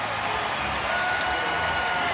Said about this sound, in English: They throw the ball out of play. A keepsake for a lifetime. And a standing ovation.